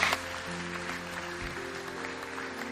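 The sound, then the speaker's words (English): An audience applauds at a morning church service to welcome new members, a soft, steady patter of clapping that continues throughout, with faint sustained musical tones underneath. “can we put our hands together this morning and welcome some people into God's family?”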